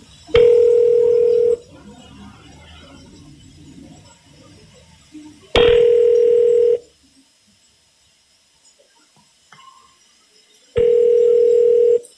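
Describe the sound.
A telephone ringback tone plays while a call to a state health hotline in Aguascalientes is being transferred to specialist staff. Three long, steady, even tones sound, separated by long quiet gaps.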